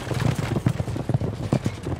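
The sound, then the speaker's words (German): Horse-drawn chariot teams gallop during a chariot race, producing a continuous run of fairly faint, rhythmic pounding hoofbeats with dense, rumbling thuds throughout. “Und da hinten preschen schon die anderen Gespanne heran. Die Pferde werden ihn tottrampeln.”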